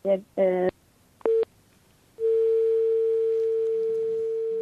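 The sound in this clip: Telephone tones after a guest's call was cut off: two short pulsed beeps, a brief single beep, then a long, steady, unbroken tone that holds to the end.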